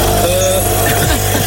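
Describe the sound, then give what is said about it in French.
A generator runs the studio air conditioning with a loud, continuous engine drone. A rumbling low hum with layered harmonics stays steady and unbroken throughout. “Ah oui, parce qu'en revanche, elle marche sur un groupe électrogène. Oui, je suis obligé de démarrer le groupe électro”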